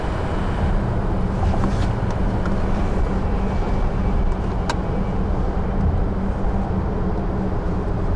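A low-slung teacher's car drives along with a continuous low rumble and a wind-like rushing noise, steady throughout with no voices.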